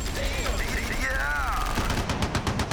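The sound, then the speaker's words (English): Gunfire sound effect with dense, rapid bursts of shots, loud and continuous across the whole clip, with a whistling tone in the first half. “When you hear those bombs drop, you've officially been obliterated! When you hear guns in the air,”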